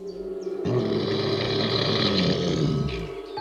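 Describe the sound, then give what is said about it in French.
A bear cub's growl, a rough, low, sustained roar that holds steady for about two and a half seconds, loud and alone, fading out at the end. “Elle se met à crier et c'est un grognement d'ours qui fait trembler les arbres.”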